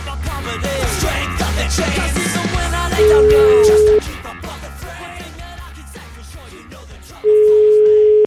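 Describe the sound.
Telephone ringback tone heard while placing a call: two steady, single-pitched beeps, each about a second long and roughly four seconds apart, over a dense, continuous background.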